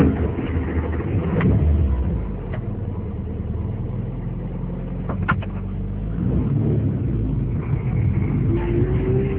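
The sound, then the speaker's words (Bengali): A car drives along with a steady, low engine rumble, continuous throughout, with a few brief knocks and rattles on top. “গাড়ি চলতে থাকে”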